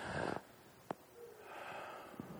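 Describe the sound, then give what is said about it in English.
A group of people inhale deeply together on a count. Soft, airy rushes of breath are audible, with a short click between them, all faint and without talk. “On the count of three, we're going to inhale.”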